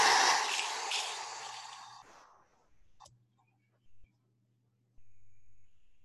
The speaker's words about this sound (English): Exhale through the mouth.